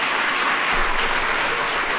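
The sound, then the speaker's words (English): A round of applause for the LA Galaxy team at a presidential reception, a short, dense and even burst of clapping that stays level from start to finish. “So, again, give A big round of applause to the LA Galaxy.”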